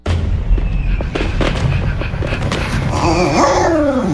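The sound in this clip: Fireworks exploding, a dense, continuous rumble of booms and crackles throughout, with a whining, dog-like cry rising over it near the end.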